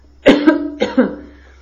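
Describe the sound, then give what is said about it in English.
A short run of coughs, a few harsh, throaty bursts in two close pairs, each followed by a fading tail, heard alone with no talk. “I think I'm fine now. I've had my cough.”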